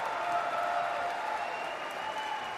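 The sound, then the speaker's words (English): Concert audience at Heinz Hall applauding the Pittsburgh Symphony's principal timpanist after the Rite of Spring: a thick, sustained wash of clapping and crowd noise at an even level throughout. “A cheer for Edward Stefan, principal timpanist of the Pittsburgh Symphony.”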